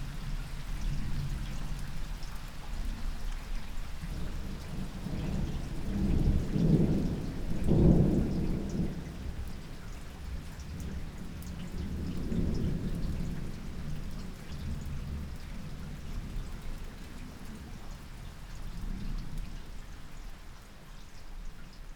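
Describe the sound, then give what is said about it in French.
Thunder rolls through a steady downpour of an August afternoon storm. Deep rumbles swell and fade a few times over the continuous hiss and patter of rain, with no voices. “août 2017, 15h30, sous l'orage.”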